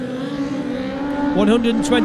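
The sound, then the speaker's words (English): A Superstock racing motorcycle, bike 56, sets off from the start. A steady, loud engine drone sits under commentary, with the engine note shifting near the end. “he's just about to leave now on bike 56”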